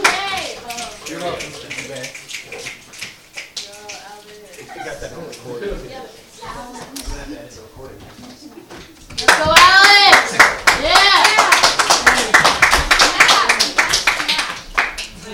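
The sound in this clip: Finger snaps and hand sounds from a church audience after a scripture reading. Scattered sharp clicks mix with talking, then grow denser and louder about midway.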